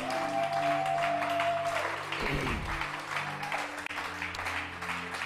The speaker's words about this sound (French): Est-ce qu'il y a quelqu'un qui peut acclamer le Seigneur